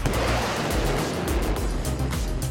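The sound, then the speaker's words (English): A flying convertible swoops in as a sound effect in an office-escape adventure, right after a fall from a window. It makes a dense, steady roar of rushing air and engine noise that stays loud throughout. “and you're caught at the last second by a flying convertible”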